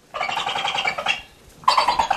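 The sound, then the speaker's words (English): A large owl with milk-chocolate brown feathers and a heavy beak squawks in a sterile white room: two harsh, raspy bursts of calling, the first longer, the second ending abruptly. “a large bird with an intimidating beak and feathers the color of milk chocolate squawks at a couple of humans wearing surgical masks.”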